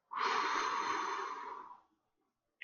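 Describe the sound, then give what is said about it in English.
Slow, deep breath during a guided breathing exercise: one long, airy, hissing breath lasting almost two seconds, fading out into near silence. “Hold on and exhale. Once more, inhale and exhale.”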